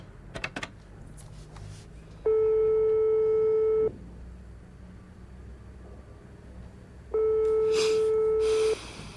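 A telephone call tone sounds as two long, steady, mid-pitched beeps, each lasting over a second and separated by a pause of about three seconds.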